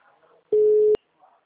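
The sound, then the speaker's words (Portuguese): A telephone tone from a call that goes unanswered: one steady, mid-pitched beep lasting about half a second, with faint background noise before and after it. “tentando ligar, mas ninguém mais atende. Tentando ligar, mas ninguém atende.”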